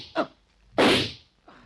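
A single sharp gunshot fired into bedding bundled under covers, a short cracking report with a brief tail, set between a couple of fainter soft thumps.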